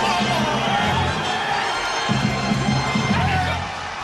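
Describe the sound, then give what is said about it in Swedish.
An ice hockey crowd roars and cheers as Luleå win the 1996 Swedish championship. The loud roar holds steady under an excited commentator's voice and eases slightly at the end. “Och det är vinstjubel! Norrbotten är svenska mästare! Grattis!”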